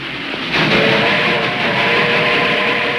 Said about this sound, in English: The train chugs into the tunnel's other end.